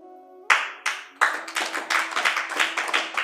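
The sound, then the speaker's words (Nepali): Clapping from an audience begins as a few sharp separate claps after a soft sustained tone, then builds into a run of steady, fairly even clapping that continues to the end. “अब यो ताली परिवर्तनशील हो भनेर मैले बुझ्नु पर्दैन विकास आनन्द, नत्र भने खोजिरहन्छ यो मन।”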